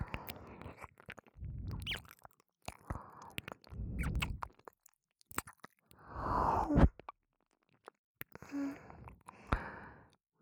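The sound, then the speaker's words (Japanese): Soft, wet mouth sounds of gentle ear nibbling, quiet clicks and bites arriving in short bursts mixed with breathy sighs. “耳噛むのどう？いた気持ちいい人がいるって聞いて、こうやって”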